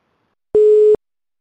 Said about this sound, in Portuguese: Deixa eu ligar pro Geraldão aqui, espera na linha rapidinho.